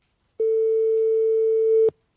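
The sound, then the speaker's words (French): A telephone call tone while dialling a hotel: one steady, loud, mid-pitched beep lasting about a second and a half, heard alone. “Attends, on va appeler sur les grandes villes parce que... Appelle Paris.”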